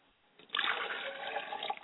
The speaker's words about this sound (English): I wash my face so I don't greet the ancestors with a stale face.